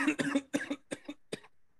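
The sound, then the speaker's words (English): Several sharp coughs come in a quick, uneven run as coleslaw catches in the throat. They are fairly loud and heard alone, with short gaps between bursts, and the last cough is set apart by a brief pause. “Some coleslaw stuck in my throat, but we're all right.”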